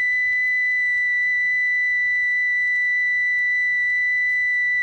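A steady high-pitched electronic test tone, billed as one million cycles, holds one unwavering pitch throughout at constant loudness, with no voices over it.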